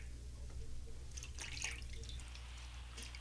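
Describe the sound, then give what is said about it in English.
Faint dripping and light splashing of water as feet are washed by hand, a few soft drips and trickles clustered mid-clip over a low steady hum. “He's washing my feet like a common servant.”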